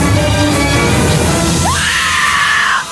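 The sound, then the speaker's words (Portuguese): Women screaming while being held up by robbers outside a pub, a loud, harsh outburst that turns into a high, sustained shriek before cutting off. “Foi bem assim que as gordinhas gritaram.”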